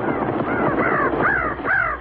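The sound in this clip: Crows caw in several harsh, descending calls spaced about half a second apart over a steady rushing background, with no talk.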